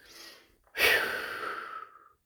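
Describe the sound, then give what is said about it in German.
A cleansing breath during a guided meditation: a soft inhale, a brief pause, then a louder, long, airy exhale that gradually fades out. “Und lass los. Reinigender Atemzug, ein und aus.”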